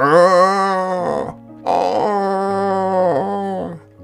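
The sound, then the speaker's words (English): A human voice imitates a crocodile groaning in pain with its jaw swollen. The groans are loud, drawn-out and moaning, in two long stretches split by a short pause, and the pitch wavers and dips near the end of each. “Early one morning, the forest animals were awakened by a loud groaning sound. Something was in terrible pain.”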